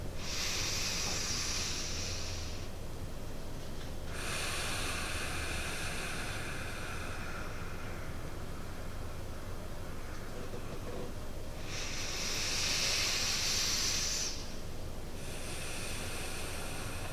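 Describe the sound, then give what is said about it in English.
Slow breathing through the nostrils during a meditation: long, airy, hissing inhales and exhales lasting a few seconds each, soft and steady with no talk. “And breathe at a pace that you can hear the air flow through your nostrils. So like this.”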